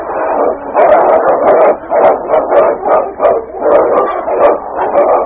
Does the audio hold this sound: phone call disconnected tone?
no